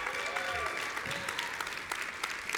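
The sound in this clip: Warm applause from a crowd welcomes a guest, a former pro football lineman, to a sports interview segment: dense, continuous clapping that holds steady throughout.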